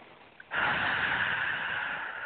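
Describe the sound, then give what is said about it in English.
A single long, deep breath as a steady, airy rush of air that starts abruptly and holds at a fairly even level to the end, with no voices. “Take a nice deep breath.”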